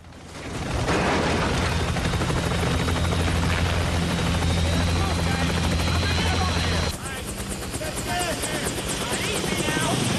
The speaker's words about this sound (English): A battered small military light aircraft is lowered onto the tarmac at Longchen Airfield by a chopper.